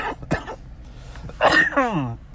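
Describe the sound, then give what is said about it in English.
Lingering cough from chest congestion with mucus in the lungs: a few sharp coughs and throat-clearing bursts, then a longer, rough and throaty coughing fit. “I still have gunk in my lungs, and the cough is lingering”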